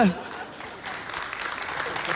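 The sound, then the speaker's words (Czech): Lukewarm audience applause, thin and quiet clapping holding at an even low level after a brief voice at the very start. “Ano, i ten potlesk byl takový vlahý”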